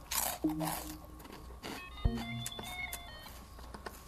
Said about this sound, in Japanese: 目の前にコパンがありますんでちょっとコパンを一口ねいただきます。